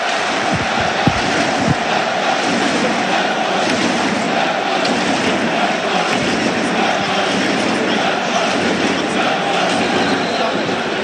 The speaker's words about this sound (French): Écoutez le stade.